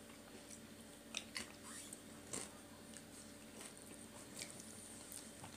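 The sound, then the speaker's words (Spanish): Soft chewing and biting of people eating, faint and intermittent, with a few brief crisp clicks over a low steady background. “No va a pegar si estamos comiendo.”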